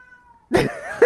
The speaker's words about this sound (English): Can you hear that? That sounded like some sort of monster terrorizing the town or something. Yeah, that's my cat. He he loves to sing us the song of his people.